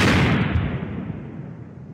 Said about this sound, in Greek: αμερικανικό βομβαρδιστικό ρίχνει ατομική βόμβα στο Ναγκασάκι